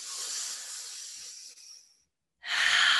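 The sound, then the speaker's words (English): Slow, deep meditative breathing: one long, airy breath that fades out over about two seconds, a short silence, then the next breath starting strongly. “and cycles of perfect loving breaths.”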